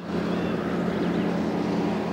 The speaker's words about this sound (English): A red lorry carries giant grey blocks of limestone across a quarry.